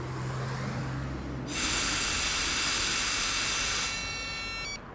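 A person blowing hard into a police breathalyzer: one long, forceful, steady rush of breath lasting a few seconds, with a thin high tone running alongside it, before it cuts off.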